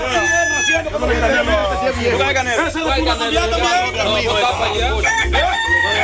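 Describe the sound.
A rooster crows in loud, drawn-out calls while several people chatter close by, their voices overlapping the bird throughout.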